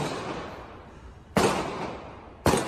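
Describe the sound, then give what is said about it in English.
Gunshots: two sharp, loud bangs about a second apart, each rising abruptly out of a steady, noisy hiss. “There are gunshots.”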